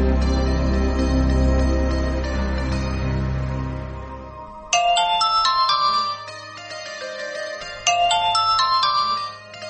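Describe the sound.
A telephone rings for a call-in in a studio, a loud electronic ringtone melody of bright chiming tones that repeats in short phrases, without talk.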